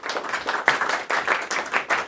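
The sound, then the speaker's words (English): A big round of applause follows a presentation: many hands clap at once in a dense, steady wash, rising and falling slightly, with no voices on top. “All right, big round of applause.”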